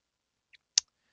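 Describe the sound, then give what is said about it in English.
Computer mouse clicks while selecting Easy Tables in an app: two short, dry clicks, a faint one followed by a sharper, louder one, with silence around them. “So I just want to kind of navigate down until I see Easy Tables. I'm going to click on that.”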